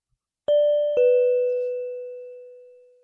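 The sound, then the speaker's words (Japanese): A door chime strikes two notes, a ding-dong with the second note lower. Both tones ring on clearly and fade slowly, with no other sound around them. “またチャイムの音。”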